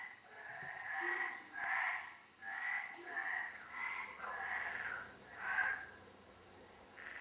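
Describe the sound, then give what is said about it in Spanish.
Frogs croak in an old, weed-hidden pool of long-stagnant water behind a kitchen, producing a steady series of raspy, rhythmic croaking bursts of similar length, with no talk. “Detrás de la cocina hay una piscina casi oculta entre la maleza. Lleva mucho tiempo con la misma agua empozada. Dentro está lleno de rana.”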